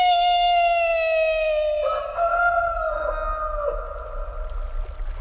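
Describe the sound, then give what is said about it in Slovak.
A rooster crowing: one long, loud, rich harmonic crow that holds a steady tone, shifts pitch midway, then trails off raggedly into rough noise. “Kikiriki!”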